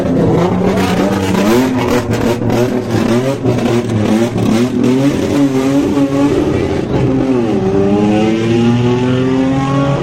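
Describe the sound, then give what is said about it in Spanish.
A Toyota Proto V6 rally car roars past during a Paraguayan rally cross-country event, its engine a loud, continuous drone whose pitch shifts and climbs as it accelerates. “Aquí va Oscar Benítez junto a Garuáez, por esta Toyota Proto V6, que va a estar también en carrera el día de mañana.”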